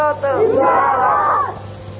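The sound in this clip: A crowd answers the takbir call during an Urdu religious address with one loud unison shout of voices. It swells quickly, holds for over a second, then drops away to quiet.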